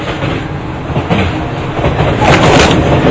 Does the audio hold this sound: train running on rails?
yes